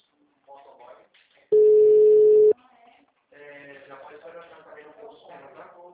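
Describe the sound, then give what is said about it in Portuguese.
A telephone line tone on a call being placed: one steady, loud tone lasting about a second, with talking before and after it. “Ah, tá ligando pra ele. Tá chamando. O número está ocupado.”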